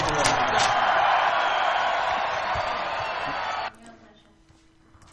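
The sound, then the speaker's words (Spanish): A live studio audience cheers in a loud, dense wash of voices and whoops that holds steady, then cuts off abruptly, leaving quieter background noise. “Arrancamos. Eso es el público magnífico.”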